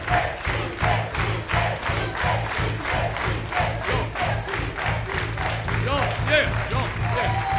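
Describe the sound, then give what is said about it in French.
An audience gives an ovation for a volunteer, a dense steady wash of clapping and cheering that stays loud throughout, with shouting voices mixed in. “Une ovation pour Jean-Pierre.”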